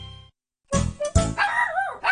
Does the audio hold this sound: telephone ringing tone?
no

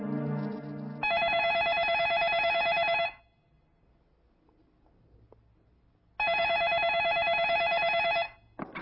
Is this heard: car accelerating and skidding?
no

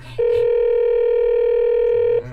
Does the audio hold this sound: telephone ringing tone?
yes

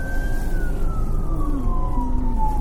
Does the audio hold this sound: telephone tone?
no

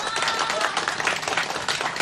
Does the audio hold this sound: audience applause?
yes

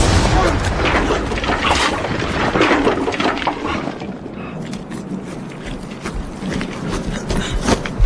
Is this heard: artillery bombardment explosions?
yes

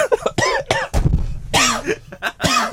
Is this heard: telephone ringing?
no

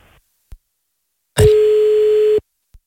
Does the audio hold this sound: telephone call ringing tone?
yes

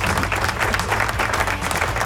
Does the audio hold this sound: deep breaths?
no

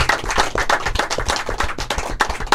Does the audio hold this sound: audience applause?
yes

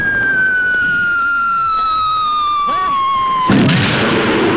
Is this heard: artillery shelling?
yes

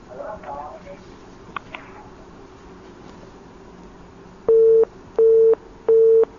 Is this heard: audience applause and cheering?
no

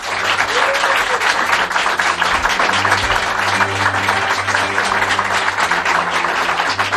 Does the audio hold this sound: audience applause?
yes

